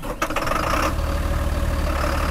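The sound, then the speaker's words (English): A tow truck engine starts up in bitter cold in Saranac Lake, New York: a brief rough burst, then a steady, low, rumbling idle. “Across town in Saranac Lake, New York, Dan Farrell fires up his tow truck.”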